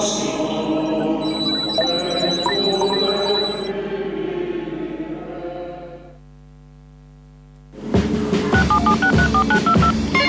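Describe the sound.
Telephone dialing tones ring out as steady beeps over a busy background. The line then drops to a near-silent hum before a loud run of rapid, shifting dial tones starts up again.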